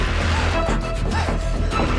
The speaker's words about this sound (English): He swings the bat, breaking some dishes.